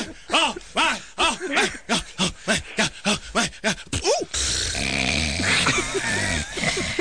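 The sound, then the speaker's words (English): A man snores in a played-back recording: many short, rhythmic rasping snorts in quick succession, each rising and falling, then giving way to a steadier stretch of noise. “Yeah, there's a better one. He snores longer afterwards.”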